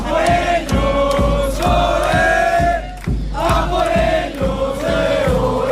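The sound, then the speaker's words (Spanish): A crowd of Spanish football fans chants in the streets before a final, many voices loud and continuous, with regular rhythmic beats pulsing under the singing throughout. “junto a la Peña de la Furia Roja, y ya podéis escuchar cómo está el ambiente en estas calles a punto de que llegue esa final en la que España quiere colocarse su segunda estrella. Así suena.”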